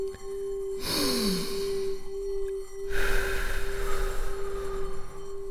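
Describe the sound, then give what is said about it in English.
Deep breathing, slow and airy: two long, noisy rushes of breath, each lasting a second or more, over a steady low hum. “Now I'd like you to take 3 deep breaths with me.”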